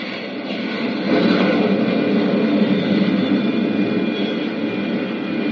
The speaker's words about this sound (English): Skillfully, Flash manipulates his craft's braking rockets. The soft pumice dust of the moon's surface is going to make the landing hazardous. Slowly, the ship settles down, tail first.